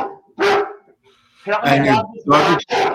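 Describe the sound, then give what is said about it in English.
An upset dog barks a few times in short, sharp bursts while people talk over and between the barks. “your dog agrees. Yeah, the dog is upset because that could have been dog treats right there.”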